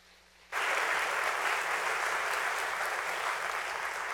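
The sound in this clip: Applause from an audience welcomes a speaker to the stage. It bursts in abruptly after a brief quiet moment and stays loud and steady throughout.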